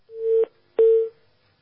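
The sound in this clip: An incoming telephone call connects with two steady, mid-pitched tone bursts. Each lasts about a third of a second, with a short gap between them, and the second burst opens with a sharp click.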